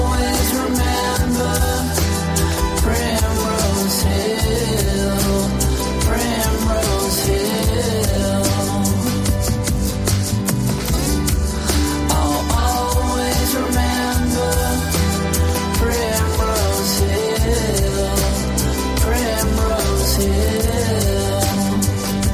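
A new song by the sons of two Beatles plays as full music, with a steady drum beat and layered harmonic instruments running continuously at an even, fairly loud level.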